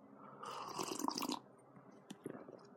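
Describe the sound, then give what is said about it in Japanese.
Someone takes a breathy slurping sip of instant coffee with cream. The faint, noisy sip lasts about a second and is followed by a few soft small sounds. “では、コーヒーいただきます。”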